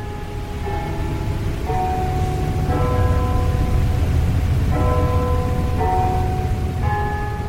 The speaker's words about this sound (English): That is the sound of the carillon bells at the Citrus Tower